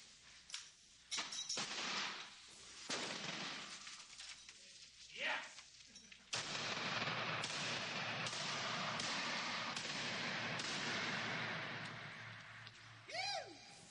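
A sting-ball grenade goes off in a room: a sudden harsh burst midway through, then a sustained rough hiss. A few sharp clicks and thuds come before it, and the whole clip is faint.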